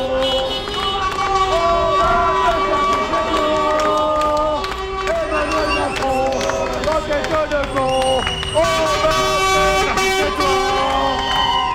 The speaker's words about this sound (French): il y a eu un défilé de camions klaxonnant avec marqué Enedis dessus